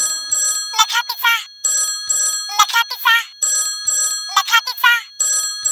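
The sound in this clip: A telephone ringtone repeats in regular cycles, each a bright burst of high musical tones followed by a brief pause, loud and steady throughout.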